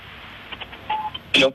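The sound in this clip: Telephone dialing tones as a radio host calls a guest: a quick run of short electronic beeps, then a louder final burst of tones at the end.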